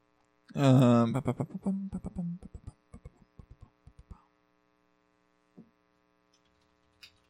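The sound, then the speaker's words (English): Steady electric motor hum with clear tonal overtones that persists throughout, while a voice and a few clicks sound early on and occasional faint knocks follow. “I can hear the motor. I hate this thing.”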